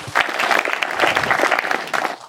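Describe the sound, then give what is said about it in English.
An audience applauds at a panel discussion with dense, steady clapping that fades out at the end. “Feel free to applaud.”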